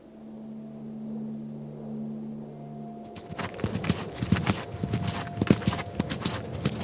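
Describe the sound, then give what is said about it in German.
Horse hooves clip-clop as a rider travels through dark gorges. A steady low hum comes first, then a quick, irregular run of many loud hoof strikes continues to the end. “Tanabai ritt durch dunkle Schluchten.”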